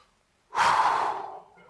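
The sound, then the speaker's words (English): A single long, deep breath drawn through face masks: a loud, breathy rush that starts abruptly, holds steady, then eases into a softer tail, with no talking. “Just take a deep breath. Just breathe.”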